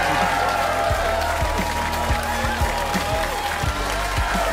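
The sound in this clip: A studio audience applauds a departing guest with dense, steady clapping and some cheering that holds at an even level throughout.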